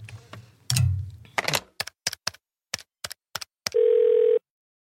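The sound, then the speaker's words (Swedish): A telephone tone on a line while a call is being placed: a run of short sharp clicks, then a steady, loud, even tone held for under a second. “Vi måste ringa Silla Holm. Ja, vi måste ringa.”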